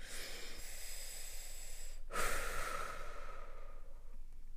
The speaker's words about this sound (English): Everybody just take a breath with me.